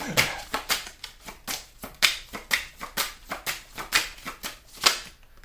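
Playing cards being dealt onto a table during a card game, a brisk series of many crisp snaps and flicks in a steady, quick rhythm, alone without talk.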